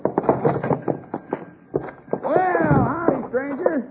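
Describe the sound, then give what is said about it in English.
Horses pull a freight wagon in, their hooves clip-clopping unevenly alongside voiced, wavering tones, with people talking over the arrival. “look out that window. A freight wagon.”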